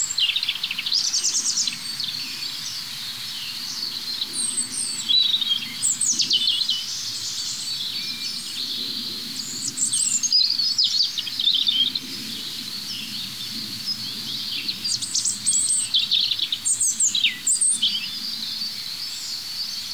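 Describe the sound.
Birds singing, with the songs of several individuals overlapping in a steady stream of high, bright chirps and trills. A faint low rumble sits beneath throughout, and no one speaks.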